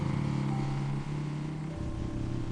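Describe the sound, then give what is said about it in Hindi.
Steady engine drone from a Bullet motorcycle ridden fast along a dusty forest road, a continuous low hum that stays fairly even and steps down slightly in pitch partway through. “पूरे जंगल में bullet दौड़ाता है, सड़क पर धूल उड़ने लगती है।”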